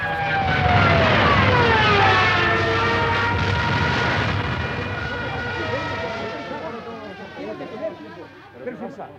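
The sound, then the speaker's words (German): Wartime warplanes dive down over docks: a loud, roaring engine whine with falling pitch dominates the first seconds, then gradually fades into lower rumbling with a few sharper bursts near the end. “Die Flieger stießen en pique herunter und ich rannte noch einmal zurück in Todesangst.”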